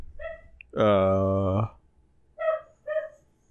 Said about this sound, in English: Dog's going ham back there.